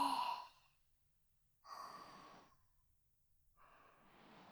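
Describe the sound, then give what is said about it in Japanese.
Slow, soft breathing in and out during a gentle guided relaxation: three airy, faint breaths with long quiet pauses between them. “ゆっくりと、息を吸って、吐いて、”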